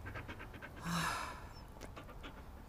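An old dog panting in quick, steady, breathy huffs that repeat many times at an even rhythm, fairly faint and with no talking over them.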